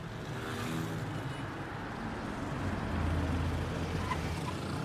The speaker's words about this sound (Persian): سوار پراید رفیع میشن و حرکت میکنن.